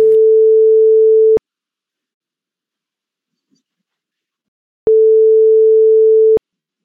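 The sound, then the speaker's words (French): Ringback tone of a telephone call being placed: two steady, pure humming rings of about a second and a half each, separated by a long silence. “il faut que j'appelle Ma aussi.”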